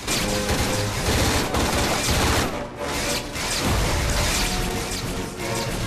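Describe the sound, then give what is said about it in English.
Soldiers exchange gunfire from the ground among stone ruins: dense, loud, continuous volleys of shots with a brief dip partway through, and no talk. “Ori soldiers fire from the ground.”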